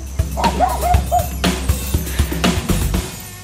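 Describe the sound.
Hoarse barking from a dog kept in a wooden shed, heard as a run of rough, yelping barks with a few whimpering tones. The barks repeat many times, loud and alone, with no voices.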